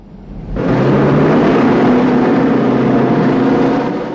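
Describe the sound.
A car drives along a dark road, its engine a steady, droning hum that rises in after a moment, holds evenly and eases off slightly at the end.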